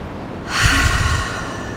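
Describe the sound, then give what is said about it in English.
A single slow, deep breath drawn during a calm relaxation moment: one soft, airy swell of breath noise that rises, holds briefly and fades, alone without any talking. “Take a deep breath in and breathe out.”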